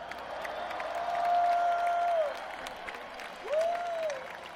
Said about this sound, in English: Let's hear it for the best crew on the planet.